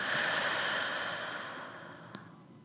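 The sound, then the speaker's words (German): Slow, audible breathing during a breathing exercise, in through the nose and out through the mouth: a long, soft, airy rush of breath that gradually thins and fades, with a faint tick near the end. “Du atmest durch die Nase ein und durch den Mund aus.”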